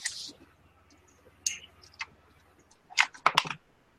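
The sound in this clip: Dice are rolled for a tabletop role-playing game's strength check, with a few scattered light clicks first and then a quick cluster of sharp clacks and rattles near the end, with no talking.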